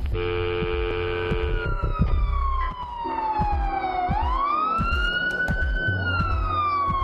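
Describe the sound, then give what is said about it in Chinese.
Ambulance and police car sirens converge near an apartment building: loud, continuous overlapping wails, with one long siren tone sliding down, then sweeping back up while steady siren tones sound beneath it. “过咗冇几耐，有好多救护车同埋警车聚集喺灯笼街嘅广利大厦附近。”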